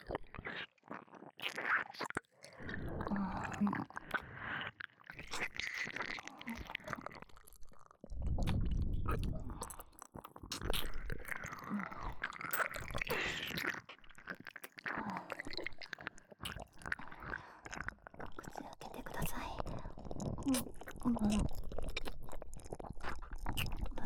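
Someone chews food that is being fed to them, with soft, wet squishing and occasional crunchy bites. The chewing is quiet, close and steady over a long stretch, with no talk.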